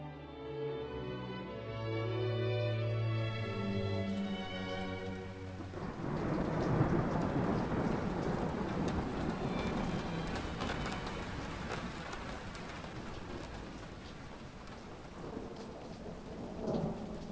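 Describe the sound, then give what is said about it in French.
Heavy rain pours down in a deluge of large drops hitting the ground with a harsh crackle, mixed with rumbling thunder. A dense, steady roar builds after the first few seconds and continues to the end, with no voices. “mais quand il pleut, c'est un déluge. De grosses gouttes de pluie frappent le sol avec un crépitement âpre.”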